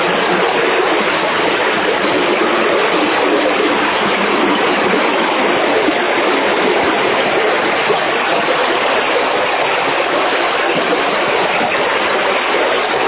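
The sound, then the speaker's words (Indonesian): Strong rushing water current flowing through a rocky tunnel, a dense, constant roar and hiss that stays loud and unbroken throughout. “Tapi untuk derasnya arus, tetap seperti ini atau bisa yang lebih deras?”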